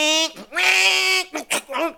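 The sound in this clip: A voice imitates a two-speed moped engine revving in neutral, a buzzing, bleating vocal drone broken into a few short bursts over two seconds.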